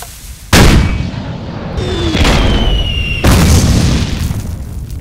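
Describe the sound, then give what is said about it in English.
Dynamite explosions in the video game Minecraft: three loud, booming blasts in succession, each followed by a rumbling tail that fills the gaps between them. “No! I must escape this hellish bombardment. Where? Damn! I'm dynamite! Fire!”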